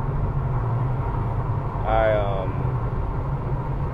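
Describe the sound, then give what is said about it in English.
A car vibrating heavily while driving gives a steady low rumble that runs unbroken through the whole clip, with a brief higher tone rising over it near the middle. “this car is vibrating a lot”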